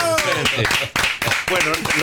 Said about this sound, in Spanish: Un aplauso para Ricardo. ¡Bravo!